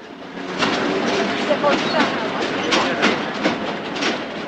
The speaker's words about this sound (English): He dashes for the train the blonde boarded. He runs up beside it and hops on the final compartment.